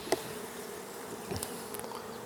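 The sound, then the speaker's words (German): Honeybees buzz at an opened beehive during a spring hive inspection, a faint steady drone with a brief sharper tick near the start. “weil die Bienen geben da so Gas”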